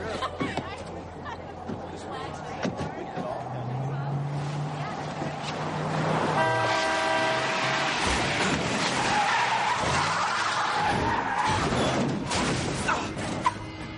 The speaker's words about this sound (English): there's the van careening across the parking lot that almost hit her